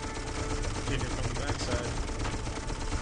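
Gunfire in an Xbox video game: dense, rapid crackling shots that run together into a continuous rattle at a steady level throughout.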